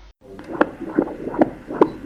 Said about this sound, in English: Heartbeat of an imminent arrival. A last ultrasound scan for a 48-year-old mother-to-be.